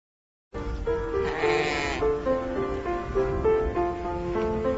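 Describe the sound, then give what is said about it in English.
Baby lambs, six and a half weeks old, bleating: a string of wavering, nasal cries that overlap and follow one another closely, loud and continuous after a short silent start. “But the stars of the show are the new baby lambs.”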